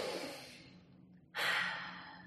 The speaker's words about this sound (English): Simplest thing is just breathe. Rather than keep speaking, take a second.